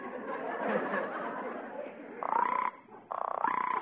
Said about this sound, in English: The frog is waiting for her mate to come home, just like the bird. Listen, she's calling to her mate.